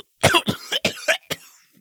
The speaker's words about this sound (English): She stifled a raw, wet cough.